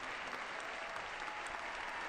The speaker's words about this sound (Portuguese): É um longo, longo aplauso de boas-vindas à Sua Santidade.